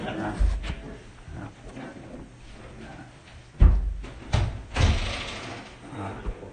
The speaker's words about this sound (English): Is it possible to open up that other door right there? Just because I'm worried about those who are outside and those of us who are inside of burning up too much.